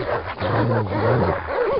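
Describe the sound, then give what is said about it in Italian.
Huskies growl and snarl in a continuous, rumbling tangle, with a few higher, wavering whines breaking through toward the end. “Questo era ciò che gli husky là attorno stavano aspettando. Si chiusero sopra di lei ringhiando e abbaiando.”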